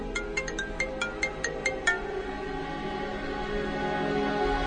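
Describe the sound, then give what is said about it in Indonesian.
A mobile phone ringtone for an incoming call: a quick run of bright, repeated high tones lasting about two seconds, then it stops, leaving a steady low background hum. “Kira-kira 10 menit kemudian, ada telepon masuk ke handphoneku.”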